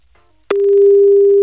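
The ringing tone of an outgoing telephone call starts abruptly after a short, nearly silent moment, then holds as one loud, steady tone to the end.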